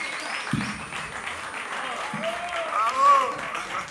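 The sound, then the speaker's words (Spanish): Audience applause, steady clapping held at an even level throughout, with voices talking over it. “Fuerte el aplauso para Luquitas, que se animó.”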